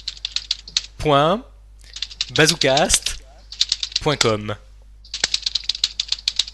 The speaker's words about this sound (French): redis l'adresse et moi je tape les touches.